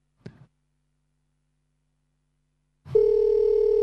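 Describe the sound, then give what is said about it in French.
A Skype call ringing on a computer: a brief click, then after a pause a steady, sustained electronic ringing tone that holds unbroken to the end. “Alors, ça sonne.”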